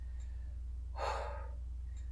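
A single heavy breath from a woman recovering her breath after being wounded: one breathy exhalation lasting about half a second, over a steady low hum.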